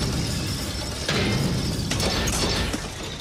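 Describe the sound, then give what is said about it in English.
A riveted copper machine is pounded from inside, giving a dense, steady metallic clatter and rattle with a couple of sharper knocks standing out. “the riveted copper contraption is pounded from the inside.”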